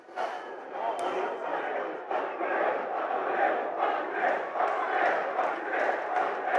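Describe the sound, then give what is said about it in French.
Crowd chanting slogans in the west stand of a football stadium: a dense, loud mass of voices that holds steady throughout, with rhythmic swells and no clear words. “Alors que la tribune ouest se met à chanter quelques slogans, on n'entend pas très bien ce qui se dit.”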